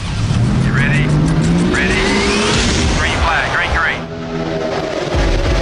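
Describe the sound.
Race cars at a NASCAR race roar loudly and continuously, their engine tones rising as they rev, with a brief dip in the noise just before the end.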